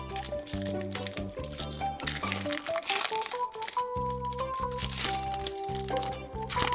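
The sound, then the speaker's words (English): Trading card packs being torn open produce continuous crinkling and crackling of wrappers, with sharper cracks and rustles throughout, over a low steady tonal background. “should we open some cards? I accept your terms. Yeah, let's do it.”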